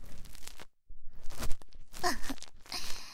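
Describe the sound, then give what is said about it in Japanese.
Scrubbing and rubbing: close, rough, noisy strokes come in short repeated bursts, with one brief pause early on. “こすられるのがいいの？ゴシゴシ。”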